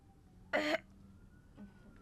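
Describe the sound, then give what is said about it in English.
A single short, harsh choking cough from someone with a bone stuck in the throat while eating egg. One loud burst stands out against an otherwise quiet background. “Bone stuck in my throat. Bone in the egg.”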